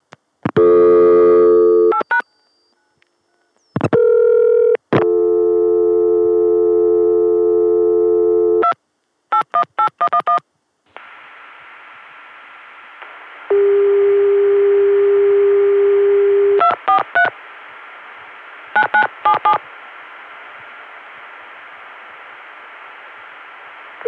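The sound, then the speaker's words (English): Telephone tones come through a PBX as a Connecticut dial tone is dialed into a 243 code routed to a Cleveland operator via Chicago. Steady tones alternate with clusters of short dialing beeps and a long, noisy, buzzing tone. “getting a Connecticut dial tone via the 281 PBX, and on that, dialing the 243 code, which goes to that Cleveland operator via Chicago.”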